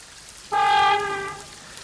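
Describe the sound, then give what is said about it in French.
A single car horn honk in stormy weather, from a car with a weakening battery: one steady, harmonic tone lasting about a second that then fades, over a faint background hiss. “Ah, le petit coup de klaxon.”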